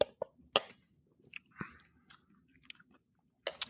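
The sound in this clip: Spoon clicks and soft chewing as someone tastes ice cream, with a few sharp clinks spread across the moment and quiet mouth sounds in between, no talk.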